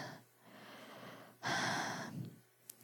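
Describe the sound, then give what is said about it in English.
Heavy breathing close into a microphone: a soft, drawn-out breath, then a louder, rushing breath, ending with a brief faint click. “breathing heavily into one microphone, and I have the other one down on the floor.”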